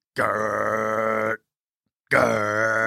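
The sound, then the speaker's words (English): A human voice imitates a trash compactor with two long, low, droning grunts. Each is steady and loud, with a short silence between them. “Well, is that a trash compactor? Yes.”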